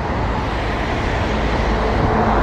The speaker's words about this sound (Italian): Oh, c'è già qua l'autobus.